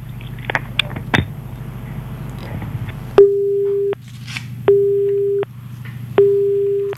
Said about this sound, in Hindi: वो हमारे साथ जुड़े थे लेकिन किसी कारणवश उनकी लाइन कट गई